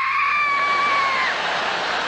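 A person screams at the table over too-hot spicy curry chicken, giving one long, steady, high-pitched 'ah' cry that holds for about two seconds, loud and alone.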